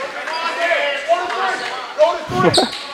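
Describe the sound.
A basketball bounces during a game, a few dull thuds on the court heard beneath a commentator talking over the low murmur of a crowd.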